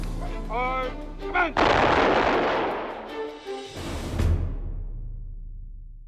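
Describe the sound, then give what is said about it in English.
Soldiers firing rifle volleys over a grave: a brief voice, then loud cracking blasts, each followed by a long, rumbling decay that slowly fades out. “It was customary for soldiers to fire three volleys over the grave.”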